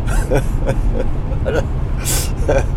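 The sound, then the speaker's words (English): Car interior noise while driving, a continuous low engine and road rumble with a few brief, faint bursts of sound over it. “I can't because I'm driving. But I only do the podcast when I'm driving, so it's a conundrum.”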